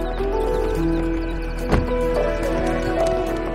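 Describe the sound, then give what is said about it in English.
A horse's hoof clips a cross rail during a jump, a single sharp knock standing out briefly over a steady tonal background. “The horse's hoof clips one of the rails.”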